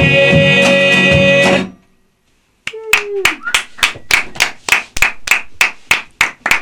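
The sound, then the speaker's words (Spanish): Audience clapping in a steady, even rhythm after a band's sustained musical chord fades into a brief silence. There are many sharp, loud claps. “Aplausos y ovaciones.”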